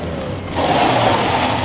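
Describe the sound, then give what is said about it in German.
Car engine as a car drives in through a large gateway into a scrapyard, a low hum that swells to a fuller, steady drone after about half a second and holds to the end. “wenig später fuhr ein Wagen durch die große Toreinfahrt”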